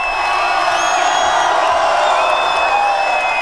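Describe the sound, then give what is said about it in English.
A big crowd at a dance-music night at the Beach Club in Brighton cheers and whoops in a sustained, loud roar with shrill whistles cutting through. “We're back at the Beach Club in Brighton with a wonderful crowd. Let's just hear them a”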